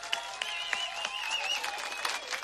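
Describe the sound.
Audience applause at a live Czech band concert: quiet, scattered clapping with high whistled tones running over it.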